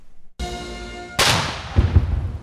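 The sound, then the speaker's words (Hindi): Cannon fire from a 21-gun salute welcoming a visiting head of state at a palace in Manila: one heavy boom with a long, decaying rumble, followed by a few low thuds. “जब अमरीकी सदर Barack Obama Manila के मलकानंग महल पहुंचे तो उन्हें 21 तोपों की सलामी दी गई।”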